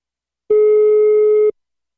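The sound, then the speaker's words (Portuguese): A telephone rings on an outgoing call: a single steady ringback tone lasting about one second, loud and alone between silences. “Tá chamando.”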